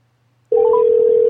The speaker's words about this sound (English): Let me call one more caller and see what the deal is.